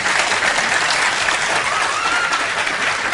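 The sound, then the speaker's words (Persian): An audience claps together in dense, steady applause that stays loud and even throughout without a break. “یه دست مرتب بزنید.”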